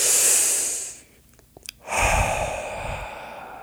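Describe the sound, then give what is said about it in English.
A deep breath taken to relax before a needle goes into the arm: a long airy inhale, a brief pause, then a slower, breathy exhale with a soft low rumble. “I try to relax my body. I take some deep breaths.”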